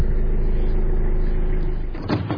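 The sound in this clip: A car drives along a sandy road washed out by river water after heavy rain, giving a steady, loud rumble of engine and road noise that holds throughout and eases slightly near the end.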